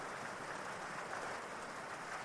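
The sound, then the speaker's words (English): A rainstorm heard from a porch, a steady, even hiss of falling rain that holds at a soft, unchanging level throughout, with no distinct drops or other sounds standing out. “And as you sit there on that porch, enjoying this rainstorm,”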